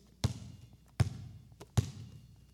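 A basketball bounces three times on a hard floor, each bounce a sharp, punchy thud spaced evenly about three quarters of a second apart, with quiet pauses between.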